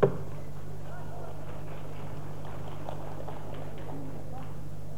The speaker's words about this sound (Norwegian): Klubba går.